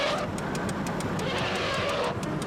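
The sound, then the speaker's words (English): Rapid, evenly spaced ticking from the turn signal of a worn-out, falling-apart car, with many sharp clicks repeating over a steady wash of road and engine noise. “That's how you do the turn signal on this pile of crap.”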